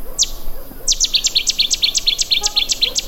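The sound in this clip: Rhythmic bird song like a great tit's but harsher: one opening note, then a steady, quick series of sharp, high, downward-sweeping notes repeated about ten times.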